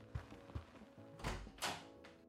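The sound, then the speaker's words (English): A door being opened, with a few soft low thumps followed by two louder, broad clattering clunks, all faint. “Get the door, please. Christ! Get the door,”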